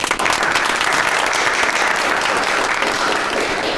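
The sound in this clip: Applause from a group welcoming colleagues from the publicity department: steady, dense clapping that runs without pause for about four seconds.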